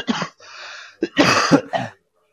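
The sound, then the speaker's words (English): A person coughs in a rough fit: a few harsh, throaty bursts with a breathy, hissing intake between them, loud and close, then silence. “That's the prize, a big cough.”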